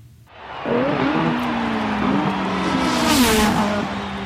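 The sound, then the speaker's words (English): Formula One race car engine roaring loud and continuous, its pitch wavering and stepping up and down in quick shifts, with a burst of brighter hiss swelling near the end. “In every Formula One race, there's a pit stop with a range of expert mechanics ready by the track to quickly detect any issues with the race car, fix them fast, and get them back into the race.”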